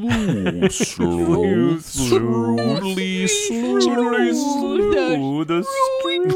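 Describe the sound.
People imitate whale calls with long, sliding, wavering moans and wails that rise and fall in pitch. The loud voices overlap and continue almost without a break.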